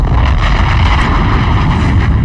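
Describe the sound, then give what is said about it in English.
A bomb explosion sound effect rolls as a loud, deep, sustained rumble, a heavy roar that holds steady without a break. “Let me drop a bomb for me.”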